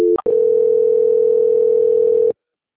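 A telephone line tone sounds as a call is transferred: a couple of brief clicks or beeps, then one steady tone held for about two seconds before it cuts off to silence.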